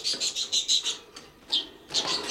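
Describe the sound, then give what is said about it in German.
Chirping from a caged bird: a quick run of short, high, bright chirps, then a brief pause and another burst of chirps, all fairly faint and with no voices. “Der Vogel sitzt da im Käfig.”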